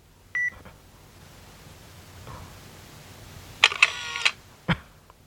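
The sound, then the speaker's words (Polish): A camera takes a photo: a short beep, then a loud, rough shutter burst and one sharp final click, each standing out against a quiet background. “I spróbujemy cyknąć jej zdjęcie. Okej. Okay. Robię zdjęcie.”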